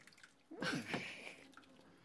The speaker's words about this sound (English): But we've put the dried macaroni in there and we're now going to pour over the very liquidy, it's like a soup, squash.